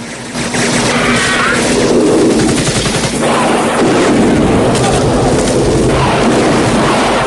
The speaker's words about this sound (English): Russians and Viet soldiers return fire from the ground as Rambo circles the camp in the chopper. A guard is taken out by machine gun fire.